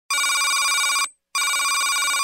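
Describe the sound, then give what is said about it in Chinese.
A telephone bell rings in two bright, buzzing bursts, the first lasting about a second, then a brief silence before the second burst starts and runs to the end, with no voices. “这个时候电话响起。”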